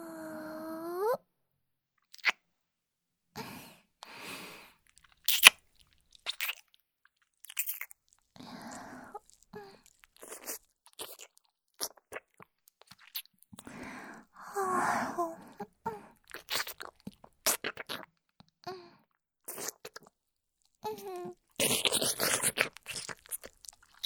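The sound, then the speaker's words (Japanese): Soft wet kissing sounds come as many scattered smacks and clicks with quiet pauses between them, while a hushed voice speaks in between. “お兄さん、キス、お上手ですね。”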